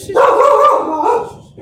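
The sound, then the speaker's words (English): A dog barks during a conversation, letting out one loud, drawn-out vocal bark with a tonal, whiny quality that trails off. “So, see, even your dog is having fun with us.”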